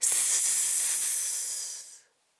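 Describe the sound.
A voice imitates a snake's hiss in a children's listen-and-point vocabulary exercise: a single bright, sustained hiss held steadily for about two seconds before cutting off abruptly.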